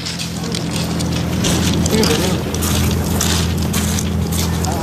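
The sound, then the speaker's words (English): Migrants step off a boat onto a beach near Dover amid a loud, continuous roar of engine hum and wind-like rushing noise. People talk under the steady din. “that is the sound of migrants stepping off a boat onto a beach near Dover after the border force failed to intercept them.”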